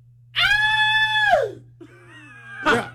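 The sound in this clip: A person's voice imitates a high-pitched scream: one shrill, sustained cry lasting about a second that drops in pitch at the end. A softer voiced sound and a short harsh burst follow.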